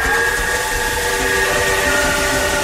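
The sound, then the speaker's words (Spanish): Steam whistle of an arriving train: a loud, steady, sustained high whistle with a hissing steam background, holding unbroken for the whole stretch with no voices. “Al fin llegó el tren que esperaba la señora.”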